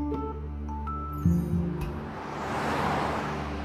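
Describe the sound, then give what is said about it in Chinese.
Car driving through streets: a steady low engine rumble runs throughout, with a broad swell of road noise building in the second half and holding to the end. “车子驶过一条条街道”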